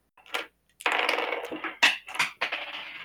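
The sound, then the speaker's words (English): Dice rolled during a tabletop shooting game clatter and rattle in a few quick bursts, with a longer rolling rattle and several sharp clicks, fairly faint. “Can you stop whopping the dice? I'm trying to. He's rolling them.”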